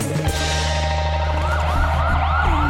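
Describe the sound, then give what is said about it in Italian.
An ambulance siren wails without a break, its tone sweeping up and down in repeated cycles, loud and alone. “L'ambulanza sta arrivando”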